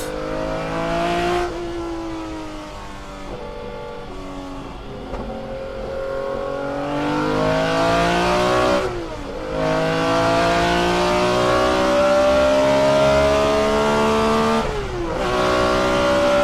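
A BMW M1 Procar, a mid-engined car with a manual gearbox, revs hard with a loud intake sound. The engine pitch climbs steadily, drops sharply at three gear changes, then climbs again.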